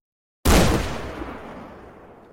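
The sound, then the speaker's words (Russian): A shotgun fires a single sudden, loud blast after a moment of silence, and its deep rumbling tail fades slowly over the next two seconds. “Выстрел Павла грохочет первым. Дробь свистит совсем рядом, сдирая кору с дерева.”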